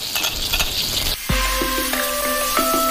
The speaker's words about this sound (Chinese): 用珊瑚椒油爆香酸菜，再加上大量的蒜末